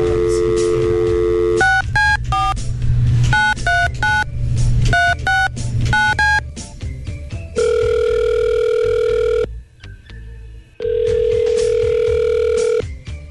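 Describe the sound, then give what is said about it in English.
Telephone keypad tones beep in quick runs of many dialed digits as a call is placed, then two long, steady ringing tones follow, separated by a short silence. “We'll give her a call right now.”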